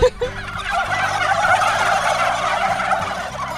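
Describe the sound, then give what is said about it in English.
A flock of turkeys gobbles at a farm in a dense, continuous, loud chorus of overlapping warbling calls that continues throughout. “I'm not afraid of birds, but seeing them all, it's like a little intimidating. It's a lot intimidating.”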